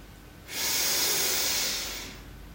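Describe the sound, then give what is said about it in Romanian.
A slow, controlled exhale: one long, even breath out with a soft airy hiss that rises quickly, holds steady and then tapers gently away. “Și apoi expirăm ușor și controlat.”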